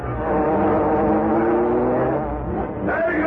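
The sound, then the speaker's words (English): Car engine roaring as a getaway car speeds off from an alley: a loud, continuous rumble whose revving pitch climbs. A higher whine enters near the end. “Then he heard the well-known sound of the Black Beauty. There he goes!”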